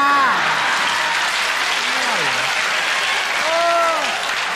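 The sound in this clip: An audience applauds a lecturer with steady, dense clapping that holds an even loudness, while a voice speaks over it.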